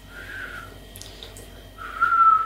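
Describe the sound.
A person whistles badly, giving a faint, breathy, wavering tone. It comes in two stretches, and the later one is louder and steadier.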